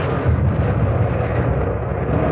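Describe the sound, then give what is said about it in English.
Warship gun turrets firing, two turrets with four guns in action aboard a ship burning aft, as a heavy, continuous booming roar with deep low-end rumble and no separate blasts standing out. “One turret was out, but the A and B turrets were firing away beautifully, all four guns in white-hot action.”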